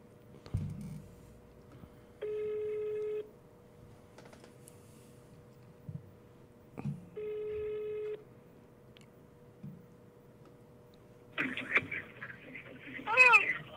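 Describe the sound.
Ringback tone of an outgoing phone call to a Brazilian congressional leadership office: two steady, even ring tones separated by a pause, with faint clicks and low background noise, followed by brief voices near the end.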